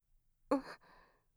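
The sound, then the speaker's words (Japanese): A single deep breath taken to calm down, heard as a short voiced sigh of exhaled air that trails off quietly after a faint intake. “まずは気持ちを落ち着けるために、深呼吸をしましょう。”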